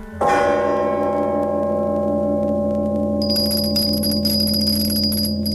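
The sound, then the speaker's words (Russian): A bell rings to announce a visitor: one sharp strike opens a long, sustained, slowly fading metallic tone, and partway through a thin, steady high-pitched ring joins it, with no voices heard. “Третий звонок.”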